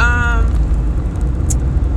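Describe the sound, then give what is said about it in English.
A car being driven on a road gives off a loud, deep rumble that fills the low end throughout. A steady humming tone is heard briefly at the start and then fades out. “I'm gonna try to do my best to kind of remember stuff while I'm driving. I think it's on this road. I'm gonna have to go back around, dang it.”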